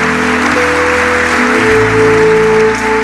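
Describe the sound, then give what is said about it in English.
Congregation applause at a church service, dense steady clapping sustained for about three seconds over held musical tones. “clap for Jesus. Clap for Jesus.”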